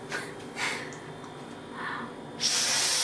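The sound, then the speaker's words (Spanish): Air blown through the valve of a pressure cooker to check it for blockages: a few short, breathy puffs of hiss, then a longer and louder rush of air at the end. “Una vez enroscada la olla, hay que poner la válvula. Pero antes, un consejillo, que es soplarla por si tiene algún tipo de obstrucción.”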